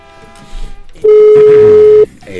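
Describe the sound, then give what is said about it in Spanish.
A single steady ringing tone sounds on a telephone line as a call goes through. It lasts about one second, loud and even, between stretches of faint background noise. “nos dice que ya está timbrando, ya entró la llamada.”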